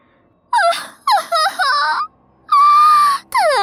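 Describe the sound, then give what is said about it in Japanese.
Crying voice in several wavering, high-pitched sobbing wails, the longest held steadily before a final shorter cry, heard alone without speech. “どうか、泣かないでください。”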